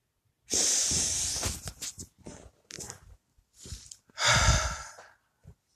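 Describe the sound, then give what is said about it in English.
Three deep breaths, each a loud breathy inhale or exhale swelling and fading with soft gaps between, the last one strongest; no words are spoken. “So let's begin. 3 deep breaths.”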